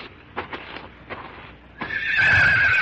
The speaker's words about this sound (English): There. This pungo. You learn ride pungo good. Within the week, I learned to ride that buffalo pony.